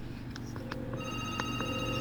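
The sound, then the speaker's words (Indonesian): An incoming WhatsApp call rings on a phone. The electronic ring tone is faint, made of short tone bursts that lead into a longer sustained tone, with no talking. “Ini malah WhatsAppnya ditelepon dulu nih.”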